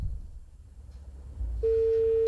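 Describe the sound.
A telephone line tone follows a phone call that has been cut off: a steady mid-pitched tone starts near the end and holds to the close, after faint low rumble and hiss.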